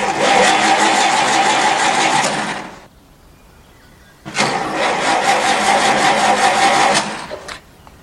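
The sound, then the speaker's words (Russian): A car engine starts and revs hard as the car pulls away abruptly, giving two long bursts of loud, rough engine roar separated by a short quiet gap. “Машина резко уезжает.”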